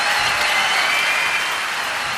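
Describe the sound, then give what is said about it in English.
Audience applause at a live big-band performance, a dense, steady wash of clapping that stays loud throughout without voices above it. “So let's give a big round of applause to this situation.”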